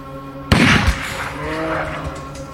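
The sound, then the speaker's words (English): A single rifle shot fired at a bull on a hunt near an inlet with ice and snow. A sudden loud crack trails off into a long rumbling decay over a steady background hum. “He shot it in the lungs, and it bolted.”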